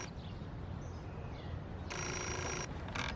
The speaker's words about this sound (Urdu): بہری ہو کیا؟ فون کی آواز نہیں سنی؟